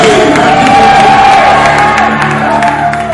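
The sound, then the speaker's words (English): A church audience shouts and cheers in a loud, sustained swell of voices with scattered whoops. “Come on, somebody give the Lord a shout and a clap and”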